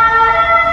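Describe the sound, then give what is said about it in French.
An ambulance siren passing through a city centre, a loud sustained wail rich in harmonic tones with a low rumble of road traffic underneath and no voices. “Il y a une bonne sirène qui passe là.”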